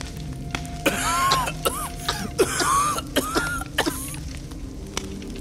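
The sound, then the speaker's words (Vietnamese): Harsh coughing from a man choking on smoke from a fast-spreading fire in a pile of straw: a rapid string of many sharp bursts with strained, pitched rasps between them over a steady low hum. “Hai Công bị khói làm cho ho sặc sụa, lùi lùi về phía sau.”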